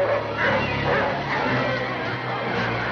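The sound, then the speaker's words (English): Dogs bark, yip and whimper as sled dogs out in the snow attack a creature in a 1951 science-fiction film scene, a dense, continuous clamour of overlapping yelps with no clear breaks. “the dogs that are out under the snow begin to attack it”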